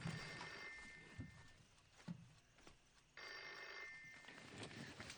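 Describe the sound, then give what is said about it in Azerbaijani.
Telephone ringing, heard as faint electronic ring bursts, one near the start and another after a pause. Low background noise and a few soft knocks sit beneath the rings. “Telefona gərək cavab verəm.”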